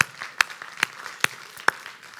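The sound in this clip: Slow, evenly spaced claps from a church audience welcoming online viewers at a Sunday service, four sharp claps standing out over a soft, steady background of lighter clapping.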